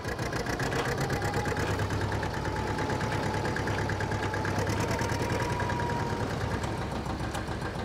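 A vintage tractor engine tuned to 33 km/h runs steadily, giving a loud, continuous low drone with a fast, even ticking knock throughout and no voices.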